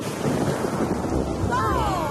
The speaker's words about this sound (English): It has started to rain. Quickly, everyone, back in the car. My goodness, it's raining hard.